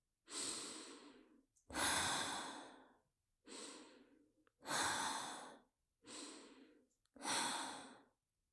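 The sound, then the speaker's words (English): Slow, soft human breathing heard alone: six long, airy breaths that alternate between inhaling and exhaling, with short pauses between them. “Inhale, exhale, inhale, exhale, inhale, exhale.”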